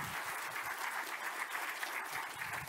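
Applause from a conference audience welcoming a pastor to the stage: a dense, steady patter of many hands clapping that holds evenly from start to finish with no voices over it.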